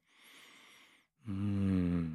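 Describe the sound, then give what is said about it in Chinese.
A sudden deep breath: a soft, airy intake, a brief silent gap, then a louder, rasping breath with a low, voiced hum. “你突然深呼吸了一下”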